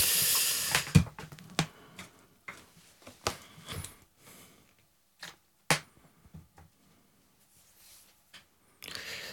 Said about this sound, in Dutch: Laten we beginnen met de kaarten. Dit is de bak en ik wil je vragen om er één te trekken.